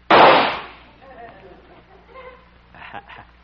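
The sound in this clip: A single loud rifle shot aimed at a bullseye target cracks at the start and decays over about half a second, followed by much quieter, softer sounds.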